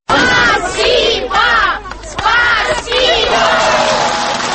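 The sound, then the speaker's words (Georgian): A crowd of residents in Tskhinvali greets the arriving Russian president with loud shouts that rise in repeated, chant-like bursts. Continuous dense crowd noise runs beneath the bursts throughout. “აი ასე ტაშითა და შეძახილებით დახვდნენ თვითაღიარებული რესპუბლიკის მოქალაქეები რამდენიმე თვის წინ ცხინვალში ჩასულ რუსეთის პრეზიდენტს.”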